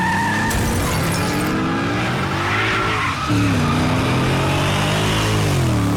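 A car accelerates hard with loud skidding tires, the engine note climbing steadily in pitch through the second half as it speeds away.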